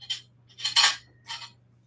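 Metal measuring spoons clink while ingredients for blueberry pancakes are measured, giving a few short, bright, tinny clinks with quiet gaps between them.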